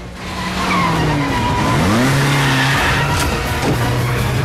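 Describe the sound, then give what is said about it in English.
Car tires squealing as a car rejoins a main road and collides with traffic, several long, loud screeches with shifting pitch over a strong engine roar. “Braces himself as he rejoins the main road and collides violently with the traffic.”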